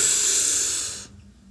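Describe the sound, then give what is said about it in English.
A deep breath in, heard as a steady, loud, airy hiss lasting about a second before cutting off into near silence. “Let's take a deep breath. Everyone, you're in a car sitting and you have a lot of things going on right now. Let's get over it together, okay? Ready? 3, 2, 1, and breathe in.”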